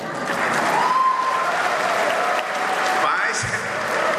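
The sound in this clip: Audience applause at an Onam celebration among Malayalis, steady mass clapping that holds throughout at moderate loudness, with a few voices mixed in.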